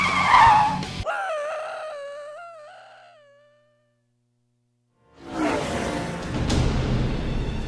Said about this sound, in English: Sorry, dude, I'm winning this race. With the break.